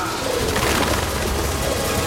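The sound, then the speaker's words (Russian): Pigeons cooing in a large flock, set within a dense, continuous wash of loud noise that stays steady throughout. “Тем временем голуби как-то недобро смотрели на супергероев.”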